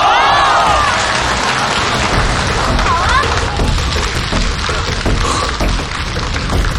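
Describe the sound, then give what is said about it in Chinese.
Loud, dense audience applause for a man on stage: sustained clapping from a large crowd with a few cheering voices rising above it, easing slightly in volume midway before continuing. “大家给这个已经觉醒的男人再一次热烈的掌声吧。”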